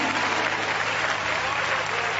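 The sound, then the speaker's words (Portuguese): A Pentecostal church audience applauds: dense, steady clapping from many hands fills the entire short clip at an even loudness. “Essa igreja dá uma salva de palmas ou não dá? Dá! Palmas para Jesus, aleluia!”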